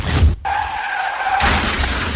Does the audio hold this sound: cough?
no